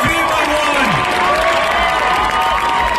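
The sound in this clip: A concert audience at the Primavera Sound festival cheering, whooping and shouting in a loud, dense roar that holds steady from start to finish.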